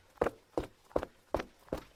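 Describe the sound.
Footsteps of someone running to the kitchen: five quick, evenly spaced soft thuds, each a short muffled impact, heard alone against a quiet background.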